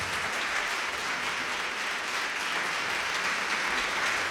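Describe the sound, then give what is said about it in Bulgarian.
Audience applause for the Bulgarian National Radio Folk Music Orchestra as it opens its 74th season: a dense, steady wash of clapping, even in loudness from start to end, with no voices. “Оркестър за народна музика на Българското национално радио своя открива 74-ти творчески сезон. Вашите аплодисменти са за тях.”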